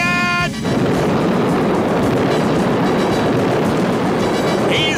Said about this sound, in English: He flips up his automatic sighting scope and opens fire with a surface-to-air missile.